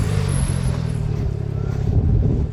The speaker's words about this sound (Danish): Kommer der en Porsche. En sølv Porsche.